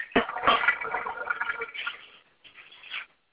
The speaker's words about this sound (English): I'm going to pour that.